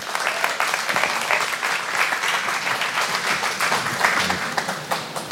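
A church audience applauds to welcome a guest preacher with steady, dense clapping that holds at an even loudness throughout.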